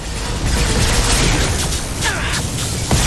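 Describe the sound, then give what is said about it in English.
Rocket fire and explosions in a video game battle, with an enemy launching rockets three at a time, blend into a dense, continuous roar of booms and bursts with faint mechanical clatter. “He fires three rockets at a time!”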